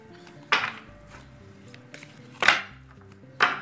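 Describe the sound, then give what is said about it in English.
Cards from a deck being mixed by hand for a card reading: three sharp, loud slapping bursts, spaced irregularly, separated by quiet stretches. “Let me mix up the cards here.”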